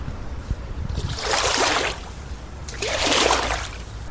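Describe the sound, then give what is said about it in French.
Water splashes and sloshes as a boat hook fishes a floating bottle out of the river beside a houseboat in Lyon, with two swelling surges of splashing over a low, constant water background. “Ça nous permet de récupérer plein de choses, les trucs qui flottent sur l'eau. Euh, donc je vais vous montrer la gaffe, comment ça marche.”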